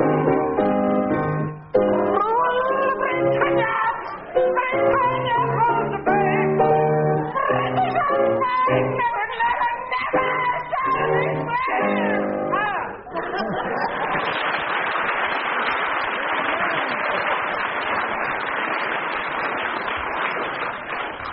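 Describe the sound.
Audience applause and crowd noise follow a sung performance on a comedy panel game. Music with singing fills the first half, then dense, steady clapping takes over for the final eight seconds.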